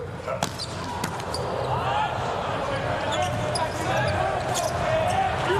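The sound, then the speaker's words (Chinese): Veteran player Anderson serves during a volleyball match between the USA and Poland. A few sharp ball strikes cut through a continuous crowd roar and commentary. “老将安德森来发球”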